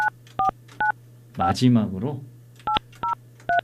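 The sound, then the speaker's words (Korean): Telephone keypad tones dialing out to place a call: six short, crisp beeps in two groups of three, with a brief voice between the groups, over a low steady hum. “마지막 연결이 될 것 같습니다. 시간이 많지는 않지만, 자, 신호 갑니다.”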